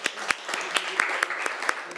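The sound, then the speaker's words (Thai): Students in a classroom clapping for a classmate, a soft, fairly regular patter of claps with a few sharper hits standing out. “นักเรียนปรบมือให้เพื่อนหน่อย”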